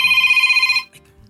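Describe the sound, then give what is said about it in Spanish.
A telephone rings with an incoming call, giving one bright, rapidly pulsing electronic trill that stops after under a second. Faint low noise follows. “A ver, nos está llegando una, nos, está, llegando una llamada. Muy en este momento.”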